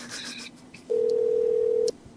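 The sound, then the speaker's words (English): A big red telephone gives a single steady electronic tone lasting about a second while a call is placed, after faint handling noise. “So I can call, like, any phone in the fucking world. Call the big red phone.”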